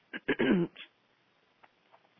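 A person clears their throat with a short, rasping burst of a few quick pulses, then falls quiet except for faint small noises.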